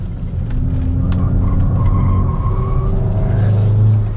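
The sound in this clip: A sports car with a mechanical limited-slip differential pulls hard under acceleration and then brakes. Its loud, steady engine drone carries tones that shift in pitch, and a deep rumble swells near the end.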